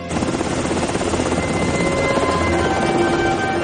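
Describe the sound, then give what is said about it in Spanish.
Two helicopters fly over mountains, their rotors making a loud, steady, dense roar that continues without a break, with faint steady tones running through the noise. “Dos helicópteros sobrevuelan las montañas y al rato divisan el lugar del rescate.”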